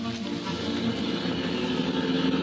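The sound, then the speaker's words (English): A car engine drones steadily while the vehicle is driven fast, a continuous, even hum with no breaks or clear changes in pitch. “The more I thought about it, the faster I drove.”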